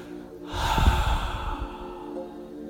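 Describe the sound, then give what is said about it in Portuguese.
A deep breath drawn in through the nose and let out through the mouth during a breathing exercise: one long, airy breath with a snort-like nasal edge, fairly loud and alone. “Agora inspiração pelo nariz, la inalação por el nariz, abdômen, diafragma e solta, suelta por la boca.”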